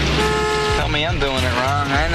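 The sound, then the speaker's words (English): Car horns honk in a pickup line, sounding as loud sustained tones with a voice talking over them partway through. “Why are they all honking? Because you're doing it wrong.”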